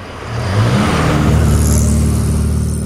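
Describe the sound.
Cars speed past at a road crossing: a loud engine roar and rumble swells within the first half-second, then holds steady and continuous with no voices.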